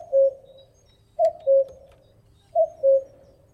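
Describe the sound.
A common cuckoo calls, the male's territorial call: three two-note cu-coo phrases at an even pace, the second note of each slightly lower, clear against a quiet background.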